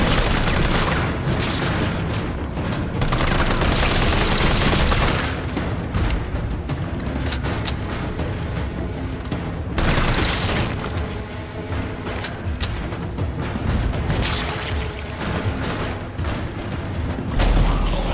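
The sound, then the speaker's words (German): Continuous gunfire against a mass of zombies in a survival-horror scene, a dense, loud wall of rapid shots and booming impacts that barely lets up. “Carlos feuerte immer weiter und verteidigte seine Stellung.”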